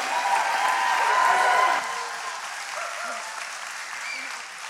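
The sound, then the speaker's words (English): A church audience claps during a Sunday morning Mother's Day service to welcome the pastor's wife. Loud clapping fills the first couple of seconds, then eases into a softer, sustained patter. “Would you put your hands together and welcome my wife”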